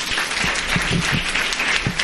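An audience bursts into warm applause to welcome authors David and Nick Sheff at a bookstore event, with dense, steady clapping that continues throughout.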